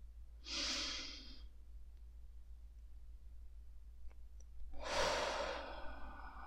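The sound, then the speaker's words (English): Two slow, airy breaths during a guided meditation, one near the start and a longer one near the end, separated by a quiet pause over a faint low hum. “And exhale. Inhale.”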